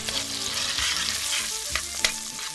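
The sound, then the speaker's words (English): Sausage sizzles and crackles in a frying pan, cooked for a French version of shepherd's pie. The spitting hiss is steady and dense, broken by a few soft knocks from stirring. “We cook sausage, another Dori twist for this French version of shepherd's pie, then return the bouillon and our cut-up beef to the pan.”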